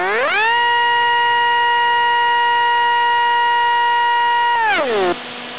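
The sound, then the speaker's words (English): A Panasonic office copier motor restarts and then shuts off. Its whine sweeps quickly upward in pitch, holds a loud, steady tone, then slides back down and fades as the machine is switched off. “In the next audio, you'll hear me restart the copier and then turn it off again.”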